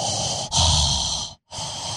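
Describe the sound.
A voice imitates heavy, labored breathing, like a heavily pregnant woman struggling for breath: a few loud, raspy, hissing breaths with a short silent gap before the last.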